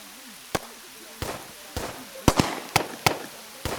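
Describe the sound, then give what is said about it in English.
Pistol shots fired from the hills ring out as a string of sharp, separate cracks at uneven intervals, with two of them close together, over a faint low background. “those aren't pings. That's pistol fire. Well, they certainly sounded like shots to me.”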